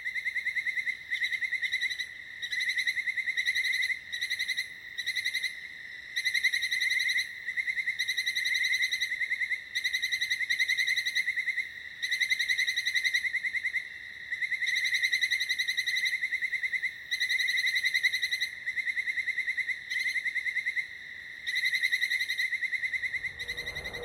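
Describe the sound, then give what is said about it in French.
A leaf-mimicking insect sings by rubbing its raised wings together. Its song is a shrill, high, buzzing trill that carries on for the whole stretch, broken by short, regular pauses, with no other sound. “Ses deux ailes dressées se frottent et font caisse de résonance pour produire ce chant étrange.”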